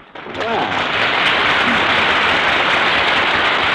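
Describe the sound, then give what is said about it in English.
Studio audience applause swells quickly after a brief voice and then holds as a loud, continuous roar of clapping from a large crowd. “You hear that? Hey, that's a nice hand you got there, Mary. They kind of like you in this town, huh?”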